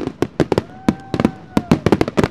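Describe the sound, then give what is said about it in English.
Fireworks exploding over downtown Kansas City at a public show: many sharp, booming cracks in quick, irregular succession, with a thin sustained whistling tone drifting between bursts. “Fireworks explode over downtown Kansas City in a show promoted by a conservative Christian radio station.”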